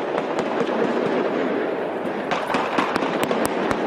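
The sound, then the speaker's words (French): Sustained gunfire during a police assault on a hostage siege: rapid, crackling shots over a dense noisy background, with sharp, distinct cracks growing more frequent in the last second and a half. “C'est l'assaut qui débute. Des tirs nourris pendant de longues secondes.”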